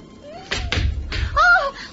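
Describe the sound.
Sound effect of a mother collapsing onto the floor in a Turkish crime radio play: a few heavy, low thuds in quick succession.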